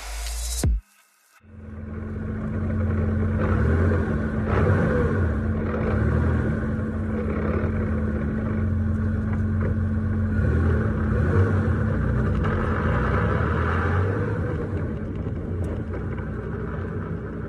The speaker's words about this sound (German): Dieses mahlende Geräusch, das begleitet einen bei jedem Anfahren und klingt bedrohlich, aber es geht nicht anders.